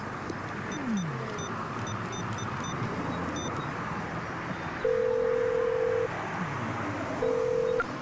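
A telephone dials a call: a run of short, thin keypad beeps, then two long, steady ringback tones, the second shorter, all over a low continuous rumble.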